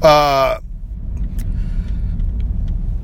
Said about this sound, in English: Anyway, so I just left the parking lot. I'm driving.